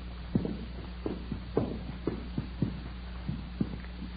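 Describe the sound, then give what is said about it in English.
Footsteps climbing hotel stairs: a steady series of firm, evenly spaced treads that thud at a walking pace over a constant low hum. “We got a pass key from the room clerk on duty and started up the stairs.”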